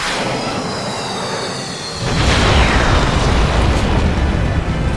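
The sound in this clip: Sound effect of a planet exploding: a steady noisy hiss for about two seconds, then a loud, deep rumbling roar with a descending sweep that stays sustained to the end.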